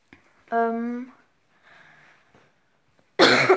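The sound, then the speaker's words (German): A sudden, harsh cough bursts out once near the end, loud and breathy, after a short voiced sound and some quieter murmuring from someone who has a slight cough. “ja, ich habe ein bisschen Husten”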